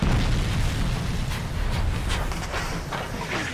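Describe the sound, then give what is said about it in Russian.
Artillery shells bursting on both sides of a steam locomotive: a dense, continuous roar of explosions and deep rumbling booms, loud throughout, with no clearly separate blasts. “Справа и слева от паровоза взрываются снаряды.”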